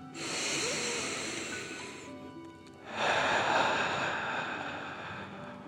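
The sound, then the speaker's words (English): A person imitates a dragon's breathing with forceful breaths, a long breathy inhale followed by a louder, rushing exhale. Both are noisy and airy, and no other sound is heard. “Breathe like a dragon, in and out.”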